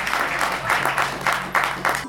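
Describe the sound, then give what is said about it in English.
Applause for women speakers, with the clapping swelling and easing in a loose rhythm over a low steady hum, then cutting off abruptly at the end. “Give our sisters a hand clap.”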